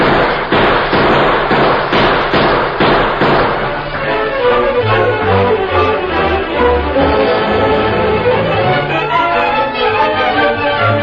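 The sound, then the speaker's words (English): Gunfire from many men shooting at a house from the hills: a dense volley of sharp, overlapping cracks and thuds, heaviest in the first few seconds, then continuing more loosely under a low, steady backing. “There must be 50 men shooting at it from those hills.”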